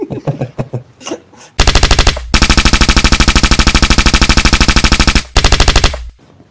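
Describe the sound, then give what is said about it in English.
Rapid automatic gunfire sound effects tear through in loud, sustained bursts with a long stretch of continuous shots in the middle, preceded by a second or so of fainter muffled thumps. “Sure, let me just unload this clip. Can you add a bunch of gun sounds in there?”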